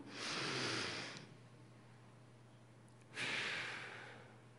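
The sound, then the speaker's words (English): Deep breathing during a guided group meditation: two soft, airy breaths separated by a quiet pause, heard alone over a low steady hum. “we need to take a deep breath. So would you take a deep breath?”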